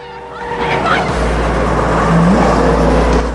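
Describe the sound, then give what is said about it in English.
Engine and road roar from two cars zigzagging through traffic in a chase with a limousine: a loud, continuous rushing drone with low rumble that swells slightly midway and holds steady to the end. “The two cars zigzag in and out of the traffic.”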